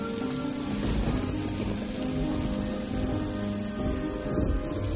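Steady rain falls outdoors, a continuous dense hiss of drops striking surfaces that runs unbroken for the whole stretch. It is moderately loud, with no voices.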